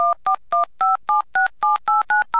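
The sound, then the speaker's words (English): Touch-tone dialing from a payphone placing a long-distance call: ten short two-pitch beeps in a quick, even sequence with brief gaps between them, clear and loud with no talk. “This phone is also capable of calls outside the LATA, for example, to San Francisco.”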